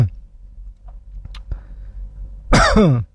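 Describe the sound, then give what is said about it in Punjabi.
A single loud, voiced cough bursts out near the end, after a few faint scattered clicks and a quiet stretch. No one talks. “ਨਾਲੇ ਤੁਹਾਨੂੰ ਵੀ ਆ ਗਈ ਖੰਘ”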